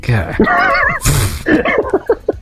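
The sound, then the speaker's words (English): A voice imitates a horse's neigh with a loud, warbling, wavering whinny, then a breathy burst and a few short, speech-like vocal sounds. “You have, like, this kind of Midwestern farm animal sounds, keep on keeping on.”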